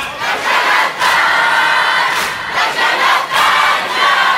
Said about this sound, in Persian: اگه بدونید چقدر قشنگ سینه میزنن، چقدر قشنگ جواب میدن.